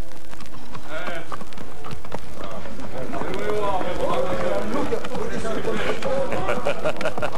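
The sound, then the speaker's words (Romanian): Hooves of a slow, skinny one-eyed mare walking clip-clop in an unhurried, uneven rhythm beneath a person speaking throughout. “Pe drum însă, Iacali se alătură și Bercăciulă, călare pe o iapă chioară și zăbavnică la mers, slabă te numărai coastele.”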